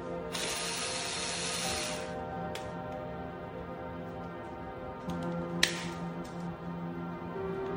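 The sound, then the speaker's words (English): A ratchet wrench loosens car battery terminals with a long run of rapid metallic clicking. After a quiet stretch, a shorter burst of ratcheting and a few isolated clicks follow. “loosen the battery terminals.”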